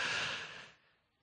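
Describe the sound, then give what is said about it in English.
A storyteller voices a nervous boy's deep breath as a single breathy rush that starts loud and fades steadily away within about a second. “He took a deep breath because he was nervous.”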